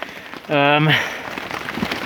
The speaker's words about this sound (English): So, not as much dripping in this particular moment as there was a moment ago, but more heavy rain may be coming.